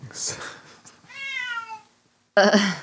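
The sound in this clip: A cat lets out one drawn-out, insistent meow that slides gradually lower in pitch, set between stretches of a person talking before and after it.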